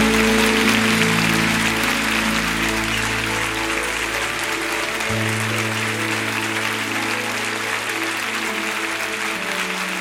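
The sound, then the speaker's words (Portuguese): Congregation applauding at a gospel church service, with a thick, continuous wash of clapping that holds loud for the whole stretch while low sustained musical notes play beneath and shift partway through. “Aplauda mais forte do que isso,”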